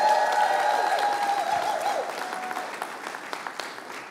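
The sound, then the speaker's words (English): Audience at a church service applauding to welcome others in, a dense, steady clapping that is loud at first and tapers slightly toward the end. “Welcome them in with me. Come on, give them a hand.”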